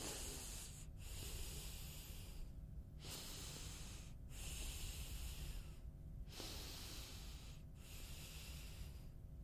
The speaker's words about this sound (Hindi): पहले, सबसे पहले गहरी लंबी सांस